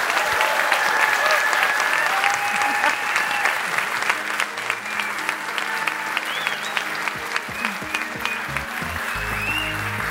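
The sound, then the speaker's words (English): Audience applause for the guests at the close of a storytelling show, with dense, steady clapping that carries through the whole stretch at an even, fairly loud level without breaks. “So some applause for our guests,”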